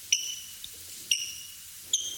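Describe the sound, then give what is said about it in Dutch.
A person whistles an imitation of a juvenile bird's contact or alarm call: three short, high, piercing notes, evenly spaced and fairly faint over a low background hum. “Ja, maar dit is een ander, dit is contactroepje. Een contactroepje? Ja, ja, het is meer een soort of alarm, contactroepje van een juveniele vogel.”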